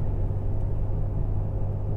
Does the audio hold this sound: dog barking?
no